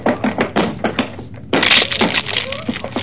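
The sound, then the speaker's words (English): A locked door is forced open: a series of heavy, rhythmic thumps builds to a loud splintering crash, with noisy clattering continuing afterward. “It's locked. Well, break it down.”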